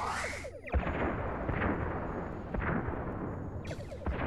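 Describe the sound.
Science-fiction photon torpedoes fired at enemy warbirds, heard as a few loud booming blasts with sharp whooshing bursts over a heavy, continuous rumble, with no talk.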